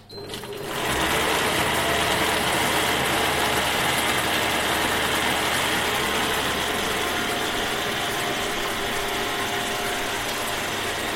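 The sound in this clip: A kitchen food processor running at speed 5 starts abruptly and holds a loud, constant motor whirr with a rattling, gear-like buzz for about ten seconds.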